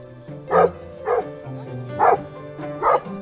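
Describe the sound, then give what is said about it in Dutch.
Four sharp barks from a dog on a farm, each a short loud burst, spread across a few seconds with quieter low sounds in between. “Eén hond is nu naar binnen. Zou hem loslaten? Moos, ga zitten.”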